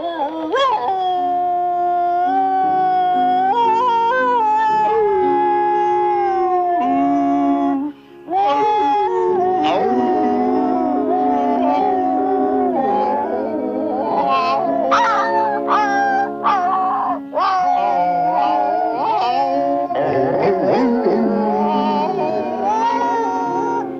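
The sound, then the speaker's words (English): Dogs howl and whimper while locked in a dog pound. Long, wavering, tonal howls and whines overlap and continue almost without pause, staying loud throughout. “Later, it pulls up to the dog pound. Inside, the tramp's friend Bull is locked up with a chihuahua, a mutt, and others.”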